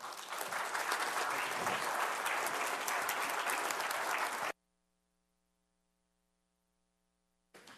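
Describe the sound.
An audience applauds to welcome a speaker, with dense, steady clapping at a loud, even level for several seconds before it cuts off abruptly into silence.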